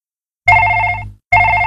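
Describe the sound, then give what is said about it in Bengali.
A telephone rings with a bright, bell-like electronic trill in two loud bursts separated by a short silence. The second ring is cut off at the end. “শুনতে পাচ্ছিস না? ফোনটা বাজছে তো।”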